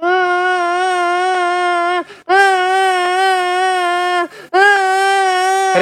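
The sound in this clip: A young boy cries loudly at home in three long, steady wailing sobs, each broken by a short catch of breath, with no talk over them.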